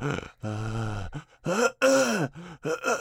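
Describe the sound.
A man's voice imitating the raspy, labored breathing of a man in his late fifties in an emergency room waiting room: a few strained, throaty, groaning breaths, voiced and rough, with short gaps between them.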